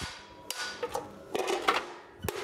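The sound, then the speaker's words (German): Hammer blows on red-hot steel sheet heated cherry-red to orange, with oxide scale flaking off under each strike. Several sharp metallic strikes land at irregular intervals over a steady hum. “Beim Schmieden mit dem Hammer im glühenden Zustand blättert durch den Hammerschlag eine Oxidschicht ab.”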